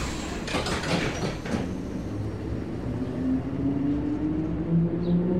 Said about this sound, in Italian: Salgo su un nuovo piccolo treno, riprendo il mio viaggio